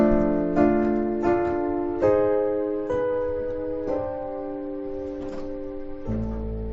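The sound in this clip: Piano playing a D, G, C chord voicing that resolves into an A, with several chords struck in a slow, unhurried sequence and a low bass note entering near the end, all ringing without talk.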